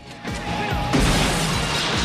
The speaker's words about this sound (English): sending the swarthy biker type flying backwards into glass.